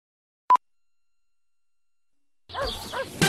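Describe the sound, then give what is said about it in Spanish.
A single short, clear mid-pitched beep from the Telefónica CTC Chile telephone time service sounds alone, followed by about two seconds of silence before other, louder noises begin. “TLP de Telefónica CTC Chile indica la hora.”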